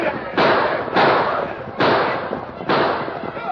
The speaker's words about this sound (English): Riding hard, the homesteaders and the ranchers fired on the Indians.